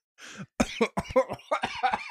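Coughing after inhaling saliva: a quiet, raspy run of several short coughs in quick succession, with a breathy catch at the start.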